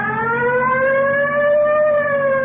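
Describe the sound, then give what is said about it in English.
A police car siren wails in a loud, sustained tone that rises slightly in pitch and then holds steady, with no voices over it. “You want to hit the siren? Yeah. I got the light.”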